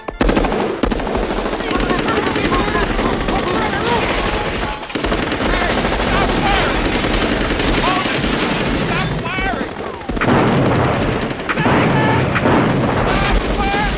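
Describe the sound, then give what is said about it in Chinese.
Police open wild, sustained gunfire in the comedy film The Naked Gun 2½. Rapid, overlapping shots form a loud, nearly continuous barrage for the whole clip, easing only briefly. “结果导致这群警察不明就里的疯狂射击。”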